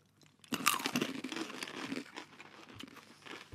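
Wasabi-flavoured peanuts being crunched and chewed, with crisp, irregular crackling bursts that start about half a second in and continue at a modest volume.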